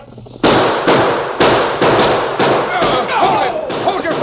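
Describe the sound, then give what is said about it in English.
Radio-drama gunshots ring out as a rapid series of loud, sharp cracks from six-shooters, with voices mixed in among the shots. “Use your gun, Tonto.”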